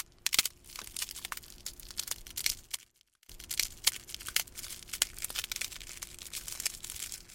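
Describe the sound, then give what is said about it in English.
Crunching and crackling of an ice cream cone being slowly crushed as foley for a hatching raptor: many small dry snaps and brittle cracks in an irregular rhythm, with one brief silent pause partway through. “by slowly crushing an ice cream cone, as I attempted to recreate here.”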